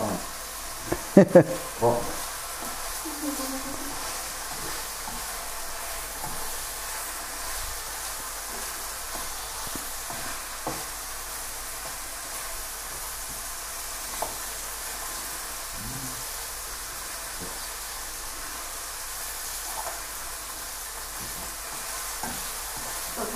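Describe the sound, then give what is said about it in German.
Meat and vegetables fry in a pan with a soft, steady sizzling hiss throughout. A few scraping clatters come near the start, and occasional faint clicks follow. “Das Fleisch wird vorher rausgenommen, vor dem Gemüse anbraten.”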